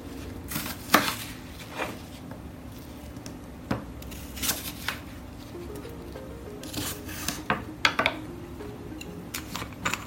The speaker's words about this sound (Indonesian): Saya potong kecil-kecil biar masuk di tumblernya.